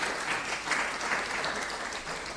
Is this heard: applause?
yes